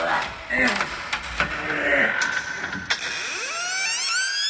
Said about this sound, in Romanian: Bisernicule! Da, Maria ta! Deschide capacul acestei răzi!